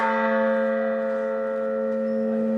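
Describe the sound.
A single church bell rings the note A, one bell of a newly cast peal. Its long, sustained tone has bright shimmering overtones and stays even and ringing throughout, with no other sound.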